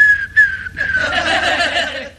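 A person whistles a clear, high, fairly loud tone that slides gently downward, breaks off briefly, then turns into a noisier, breathy, laughing sound.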